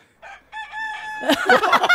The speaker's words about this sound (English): It's a rooster. It's meant to be a bloody magpie.